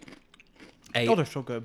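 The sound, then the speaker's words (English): Crunching of ridged, flame grilled steak flavour McCoy's potato chips being bitten and munched, faint and scattered at first, then a voice speaks over the eating. “Flame grilled steak. And salt and vinegar McCoy's. Describe these to our American listeners as I munch into one.”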